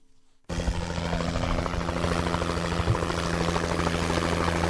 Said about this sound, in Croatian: Sanitetski helikopter potpuno je opremljen.